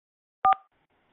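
Two quick touch-tone keypad beeps dial into an automated phone messaging system. The clipped dual tones sound in close succession and are followed by silence on the line.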